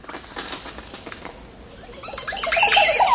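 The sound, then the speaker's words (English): An oropendola singing in a tall tree hung with twenty or more woven sack-shaped nests: faint clicks and rustles at first, then a loud, liquid, gurgling burst of song at the end. “We return today to this flamboyant singer as he holds forth in a tree bedecked with 20 or more oropendula nests.”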